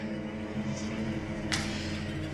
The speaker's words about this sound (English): A hand whips out and hits her in the face. She falls back in the tub.